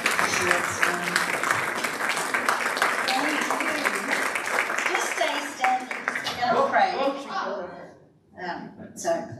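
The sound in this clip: A church audience applauds a preacher's welcome with dense, steady clapping that holds for several seconds, then thins and dies away near the end as voices come through.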